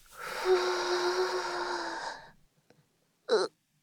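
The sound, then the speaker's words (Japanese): Deep breathing during a forward stretch: a long, voiced exhale like a drawn-out sigh lasts about two seconds and fades, then after a pause comes one short, sharp breath. “深呼吸をしながら、前に、”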